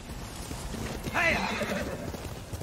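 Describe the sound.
A horse whinnies and its hooves clip-clop in a video game, the neigh rising to a loud harmonic peak over a steady low trot.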